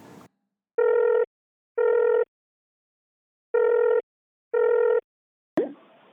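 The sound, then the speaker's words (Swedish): An outgoing telephone call ringing on the line: four identical buzzing ring tones in two pairs separated by a pause, steady and clear, followed by a sharp click as the call is picked up. “Så vi kommer göra så att jag kommer eh, slå en signal till Josefin så kan vi ta reda på vad hon sysslar med just nu.”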